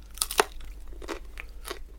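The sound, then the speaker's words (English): Crisp pan-fried bread bites with loud crunches. It is made from thin dough cooked in a dry pan without oil and brushed with a little butter on top. Two sharp crackling crunches are followed by softer chewing crunches. “which will crunch. Hopefully. Be nice and crisp. Yes, crunching. And did you put some butter on the top of it? I brushed a little bit of butter on the top, yeah. I'm just going to give it a little crunch.”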